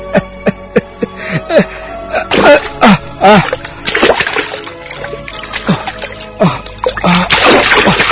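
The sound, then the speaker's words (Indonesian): Someone falling into a cold swimming pool, with several loud, splattering splashes of water mixed with vocal sounds and short bursts of breathy noise. “Apa ini? Apa ini? Air. Aku kecebur di kolam. Waduh, dingin sekali air kolam ini.”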